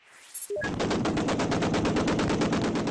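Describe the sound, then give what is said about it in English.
Rapid, evenly spaced automatic gunfire rattles on without pause as rebel fighters come under fire from pro-Qaddafi troops while pushing into the oil port of Brega, Libya, preceded by a few brief high beeps. “Comes from Brega, rebel fighters coming under fire from pro-Qaddafi troops as they pushed into the oil port.”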